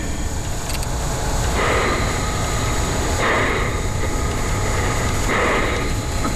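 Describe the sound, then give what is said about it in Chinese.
A tunnel boring machine restarting, its cutterhead and screw conveyor turning. A dense, steady mechanical rumble swells into a few recurring surges of grinding noise, with no talk. “管片安装完毕，天佑号重新启动。控制刀盘和螺旋机扭矩，”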